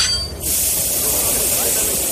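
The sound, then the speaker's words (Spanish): A train arriving at a wartime concentration camp in deep winter frost. A steady, loud steam-like hiss bursts in after a brief quieter opening and holds without a break. “Cada día un tren con miles de personas para su entrada.”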